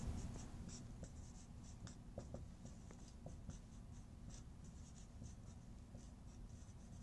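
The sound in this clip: Faint pen or chalk strokes as a math equation is written out: many short scratchy marks in an irregular rhythm, quiet and alone.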